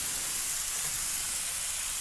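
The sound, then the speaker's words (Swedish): Cheese and zucchini sizzle in a frying pan, giving a loud, steady, bright hiss that holds evenly throughout with no voices. “nu går den ner i vår ost och zucchini stekpanna helt enkelt, och fräser till så där ljuvligt.”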